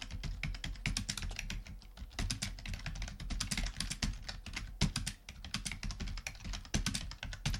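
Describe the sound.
Someone types a script description on a computer keyboard: many quick keystroke clicks in a steady, busy rhythm with brief pauses, fairly faint and with no talking.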